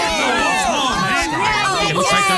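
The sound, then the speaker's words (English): Crowd cheering at a children's sports game, a lively mix of overlapping shouting voices, children's cries and excited chatter rising and falling in pitch, continuous and fairly loud throughout. “Oh, I love to hear all the cheers from the crowd.”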